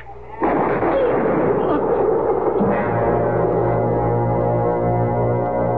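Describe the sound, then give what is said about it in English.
A single gunshot in a western-style drama: one sharp, loud crack with a rumbling tail, followed by a sustained dramatic music chord. “I stood there, the gun still smoking in my hand.”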